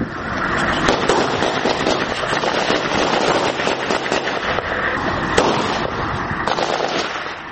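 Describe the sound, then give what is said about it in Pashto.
Gunfire from militants shooting at an Afghan forces post inside a civilian house: dense, sustained cracking shots run through the whole stretch at steady loudness, with a few sharper, louder reports standing out. “د افغان ځواکونو په داسې پوسته کې یم چې هره شیبه وسلوال پرې خال خال خو کله منظمې ډزې کوي.”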